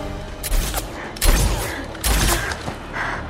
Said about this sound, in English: She shoots one of the soldiers